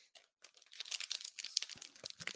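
Crinkling of the packaging around a Slinky custom gauge guitar string set with reinforced plain strings, gauges 10 to 46: many quick, faint, papery crackles and small tearing rustles in an irregular rhythm, with no talk.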